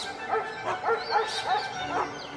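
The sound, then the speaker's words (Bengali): Pet dogs of courtly ladies and gentlemen bark as a pack at a crowded palace reception: many overlapping barks and yips in a steady, busy rhythm, fairly loud throughout. “Madame মসিয়েদের সাধের কুকুরের পাল আর খাঁচাবন্দি পাখির ঝাঁকের কলরবে কান পাতা দেয়।”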